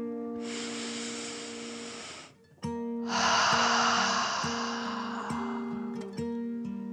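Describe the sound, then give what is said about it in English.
A voice imitating a dragon takes a deep breath in and then out: two long, loud, hissing breaths with a short pause between, over soft background music. “With another deep dragon breath in and out,”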